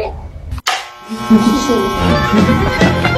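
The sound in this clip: Electric hair clippers shaving a head give a steady, loud buzz with strong harmonics, broken by one brief cut near the start, while people talk over it.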